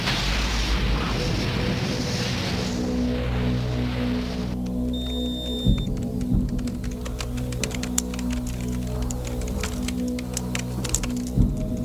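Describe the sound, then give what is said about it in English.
Retro rockets firing as a broad roaring rush for several seconds, giving way to a steady low hum with layered tones and scattered small clicks and taps. “Retro rockets firing.”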